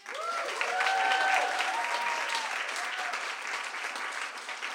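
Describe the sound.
Audience applause welcomes two novelist guests at a book event: full, steady clapping that holds loud through the whole stretch, with a few brief voices rising over it early on.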